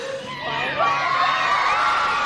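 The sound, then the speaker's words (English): A crowd outside a courthouse cheers after a first-degree murder verdict, a loud, sustained mass of shouting and whooping voices that swells after the first moment and stays full to the end. “Outside, the crowd erupted in cheers.”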